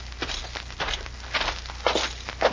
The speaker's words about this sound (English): You must be sure there is no one in the sheriff's office. Pancho not here, no one, Cisco. I'll wait here and keep watch. See, Pancho keep watch. I'm going into the office, Pancho.